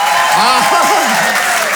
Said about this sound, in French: Applaudissements.